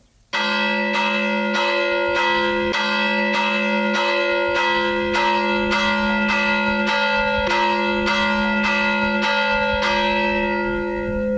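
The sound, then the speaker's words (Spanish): Church bell rung by hand as a fire-alarm toll: many rapid, evenly spaced metallic strikes ring out loud and alone, each ringing tone overlapping the next in a steady, urgent clanging. “Y ahora el toque de incendio. Este de siempre, de toda la vida ha sido así. Lo que pasa es que ahora ya tenemos que automático y ahora lo estamos haciendo manual. Toque incendio.”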